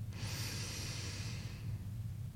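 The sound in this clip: One slow, deep breath, a soft airy rush that swells and fades over about a second and a half, heard alone above a low steady hum.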